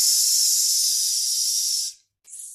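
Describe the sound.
A long, steady hissing exhale forms an S sound during a breathing exercise for the lungs. The bright airy hiss lasts about two seconds, fades out, and after a short silence a second hiss begins.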